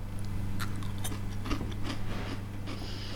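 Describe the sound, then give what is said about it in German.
Someone bites and chews a sugar-candied basil leaf, making a few short, crisp crunching crackles over a steady low hum. “Probieren Sie mal ein Basilikumblatt, ein verzuckertes.”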